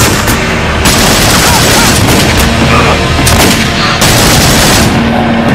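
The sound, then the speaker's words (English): Continuous gunfire in a street shootout between police and armed gunmen by a car: a loud, dense barrage of many rapid shots blurring into one another with no break across the whole stretch. “Continue to fire at him.”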